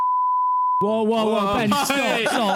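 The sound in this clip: A steady, high-pitched pure bleep censor tone sounds alone for just under a second, then cuts off as people start talking.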